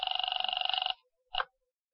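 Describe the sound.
A telephone bell rings during a call to the police, one sustained, evenly trilling ring lasting about a second, then a brief second burst after a short silence.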